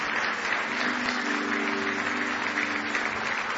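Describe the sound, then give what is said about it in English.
Applause from an audience at a worship service: dense, steady clapping of many hands, evenly loud and unbroken from start to finish. “Give the Lord one more hand clap of praise tonight.”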